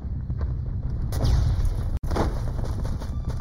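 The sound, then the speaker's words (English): Artillery shell explosions in a combat scene, with a loud, continuous rumbling roar that swells into a heavier burst partway through and is cut by one sharp, brief gap before the din resumes. “An artillery shell landed right next to PFC Naughton.”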